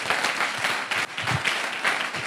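Applause from a church audience during a worship service: dense, steady clapping that carries evenly for about two seconds, with no voices over it.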